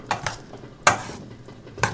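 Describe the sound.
Sliced cucumbers are gently stirred with other ingredients in a bowl. Soft scraping and shuffling are broken by a few sharp clinks of a utensil against the bowl, fairly quiet and uneven in rhythm.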